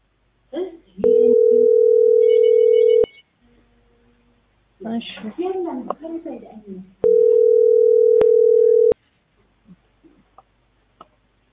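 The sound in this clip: Ringback tone of an unanswered telephone call: two long, steady, mid-pitched tones of about two seconds each, with voices talking in between and after them.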